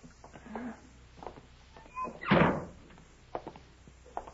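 A side door being opened gives one loud, heavy thud and rattle in the middle, set among quieter scattered knocks and handling sounds.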